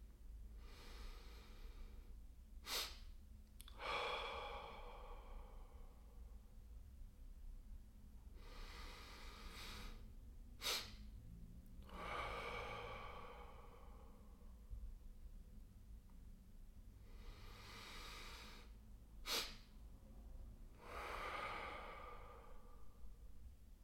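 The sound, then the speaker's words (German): A double-inhale, slow-exhale relaxation breathing demonstration. Three quiet breathing cycles each pair two quick inhales with a long, soft, airy exhale, separated by calm pauses. “Ich mache dir das Ganze mal vor, einfach für ein paar Atemzüge, dass du ein besseres Verständnis dafür hast, wie das Ganze funktioniert.”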